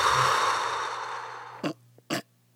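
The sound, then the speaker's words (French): Breathing in and out as a breathing exercise: a long, airy breath that fades away, followed by a couple of short, sharp puffs of breath. “On va essayer ça ensemble. Hein? Inspirez. Expirez.”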